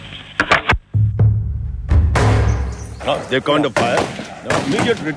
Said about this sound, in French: Le tir, et ils retournent le tir immédiatement.